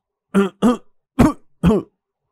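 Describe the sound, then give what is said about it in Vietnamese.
Four short, harsh coughs from a man choking on his first drag of a cigarette. They come in two quick pairs with a brief gap between, are fairly loud, and have no talk over them. “Triệu Ngọc bật lửa, đốt thuốc, nhưng chỉ mới hút một hơi, hắn đã phải ho sặc sụa.”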